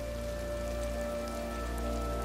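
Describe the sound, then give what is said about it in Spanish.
Rain patters steadily on the surface of a koi pond, a dense, even hiss of drops with no distinct individual hits, constant in level over a low steady hum. “como los peces koi que nadan en armonía en el estanque, a pesar del golpeteo de la lluvia.”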